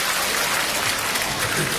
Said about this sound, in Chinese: 感谢大伙热烈的掌声啊！